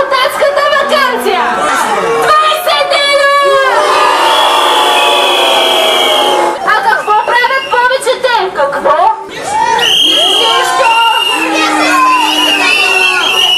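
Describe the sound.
A crowd of students shouts and chants at a school protest in Shumen, Bulgaria, against a shortened summer holiday. Loud young voices overlap with cheers, laughter and chatter throughout, and there is a brief dip partway through.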